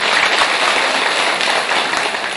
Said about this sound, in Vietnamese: Cho một tràng pháo tay.